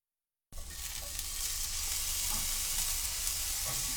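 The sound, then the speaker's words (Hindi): Shimeji mushrooms fry in a pan with a little salt over low heat, uncovered, while being turned. A steady, dense sizzle starts abruptly and holds evenly loud throughout, with faint scraping of stirring underneath. “शिमेजी खुम्बियों को frying pan में फैलाकर उन पर थोड़ा नमक छिड़क दें। ढके बगैर धीमी आंच पर पकाएं और इस दौरान उन्हें उलट पुलट करते रहें।”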